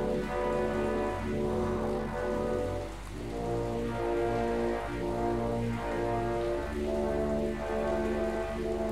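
Rain falling on a rainy day, a steady, dense hiss of drops on surfaces that continues evenly throughout with no talking.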